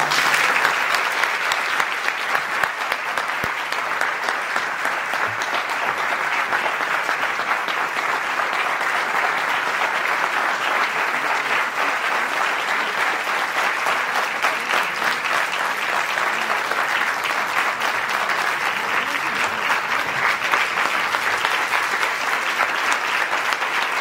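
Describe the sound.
Sustained applause from a lecture audience at an institute welcomes a visiting doctor, a dense, even clapping that holds steady for about twenty-four seconds.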